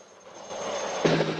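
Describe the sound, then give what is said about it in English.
Helicopter flying over a mountain pass: a steady roar of engine and rotor swells in, growing louder and brighter over the brief stretch. “A helicopter flies.”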